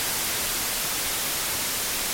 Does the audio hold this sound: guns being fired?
no